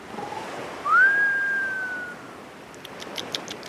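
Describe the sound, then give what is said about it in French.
Whistling snore effect of a sleeping professor in a cartoon: a single whistle tone that slides upward, holds, then fades away, followed by faint, quick pulsing sounds. “Il fait le même bruit que le professeur quand il dort.”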